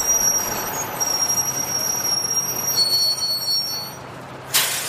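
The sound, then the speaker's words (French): A train pulls into a busy Paris railway station platform, its low rolling rumble laced with sustained high wheel squeals before a short burst of brake hiss near the end. “Bon, me voilà à la gare de Lyon. Fin du voyage. Je suis sur le quai.”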